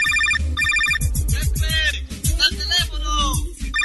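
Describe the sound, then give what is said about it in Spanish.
A telephone rings loudly in short, trilling electronic bursts, at the start and again at the end. Other sounds fill the gap between the rings. “¡Teléfono!”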